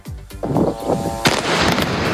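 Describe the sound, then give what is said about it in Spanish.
Gunfire crackles during a nighttime exchange of fire in Lebanon between Hezbollah and Israeli forces. A few sharp bangs cut through a dense, rumbling wash of noise. “Este es el sonido de lo que ha pasado esta noche en el Líbano. Ha habido intercambio de fuego entre las dos partes, entre Hezbollah e Israel.”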